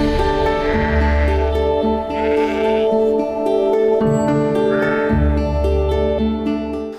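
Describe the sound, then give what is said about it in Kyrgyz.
Young lambs bleat on a village livestock farm in spring, a few wavering, rising cries breaking out one after another over a steady, continuous background. “Жаш козулар экен, а?”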